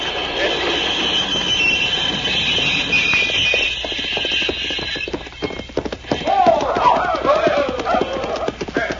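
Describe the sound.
A locomotive running, loud and continuous, with a steady rumble and a sustained tone through the first half, then heavier irregular clattering and clanking of wheels and metal.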